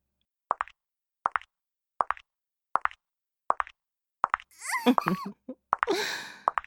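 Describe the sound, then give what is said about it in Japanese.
High-heel footsteps: five sharp, evenly spaced clicks, followed by brief vocal sounds. “ヒールの音に興奮してるの？”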